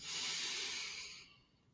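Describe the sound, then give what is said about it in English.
A single deep breath during a guided breathing exercise in a fitness session: a steady, airy rush of breath that holds evenly, then fades out near the end, alone with no talk. “Okay, let's take a deep breath in. And let it go. Again, deep breath in.”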